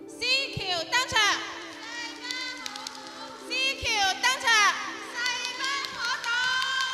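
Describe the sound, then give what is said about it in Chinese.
Many children from a primary school support team in Yuexiu District, Guangzhou, cheer and shout encouragement in shrill, overlapping bursts that swell and ebb loudly throughout. “不单只有先贤的声音，还有很多助威加油声。”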